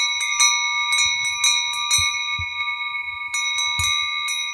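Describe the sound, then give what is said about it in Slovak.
Sheet-metal and cast sheep bells, the larger on big sheep and the finer-toned on lambs, jangle together as the flock grazes: many irregular clanks over a sustained bright ringing, with no talk. “to všetko naraz cengalo. Počuli ste? Tie plechové zvonce nosili veľké ovečky a malé liatovce, čiže liaté zvonce, s jemnejším zvukom dávali na krk jahniatkám.”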